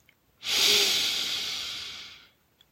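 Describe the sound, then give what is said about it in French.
A slow breath is drawn in through the nose during an evening meditation. It comes as one soft, airy hiss that swells quickly, holds for about two seconds, then gradually fades into quiet. “prenez une lente et courageuse inspiration par le nez”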